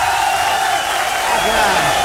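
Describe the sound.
A crowd applauds and cheers to welcome a norteño musician onto a stage, a loud, unbroken roar of clapping and raised voices that stays dense and level throughout.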